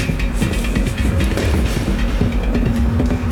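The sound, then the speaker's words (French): Underground metro platform on line 14 fills with steady, loud low rumble and faint rhythmic clatter, a continuous mechanical drone with no clear voices. “On est sur la ligne 14, donc là, vous imaginez, on est sur le quai arrivé de la ligne 14.”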